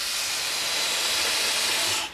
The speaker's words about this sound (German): Da koche ich jetzt diesen Fenchel kurz an.